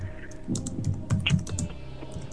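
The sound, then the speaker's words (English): Rapid typing on a computer keyboard: many irregular clicking keystrokes in quick bursts, fairly soft and steady throughout, with no one speaking. “Are you typing? No. That's me.”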